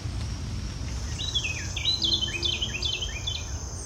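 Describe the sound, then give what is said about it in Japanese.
Birds call in a damp forest near midday after overnight rain: a run of quick, high whistled chirps repeats over a low, steady background rumble, fairly faint overall. “結構鳥の声が聞こえてきてます。”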